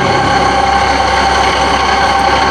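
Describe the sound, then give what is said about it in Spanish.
Steady, heavy engine drone of a four-wheel-drive truck straining to pull a stuck vehicle free with a worn cable, a loud, unbroken low rumble that holds constant throughout. “Con tracción en las cuatro ruedas, el chofer tiene el camión más fuerte para sacarlo de ahí.”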